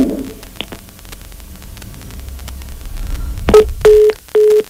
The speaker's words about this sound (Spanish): se nos cortó ahí la llamada con Luis